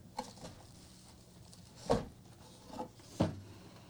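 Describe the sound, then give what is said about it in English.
Gift box being opened with a few sharp handling knocks and rustles, two louder bumps standing out near the end, spaced by quiet gaps with no talk. “You got to stop looking at the screen because I'm about to open the box.”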